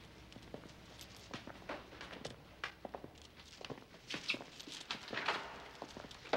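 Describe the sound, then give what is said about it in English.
Footsteps of several people walking down a narrow, dimly lit prison corridor: an irregular patter of many soft steps, some landing as sharper knocks, steady and fairly quiet throughout. “the two officers enter, passing a barred door, and walk down a narrow, dimly lit corridor”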